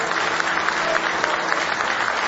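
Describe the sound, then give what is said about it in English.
A church audience gives a big round of applause in praise during a worship service. The clapping is dense and steady and sounds alone. “Give Him a big hand clap of praise.”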